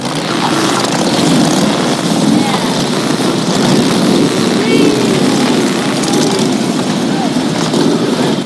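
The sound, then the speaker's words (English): Bikers rev their chopper motorcycles, a loud, steady, rumbling engine roar that fills the whole stretch without pause. “The bikers rev up their choppers.”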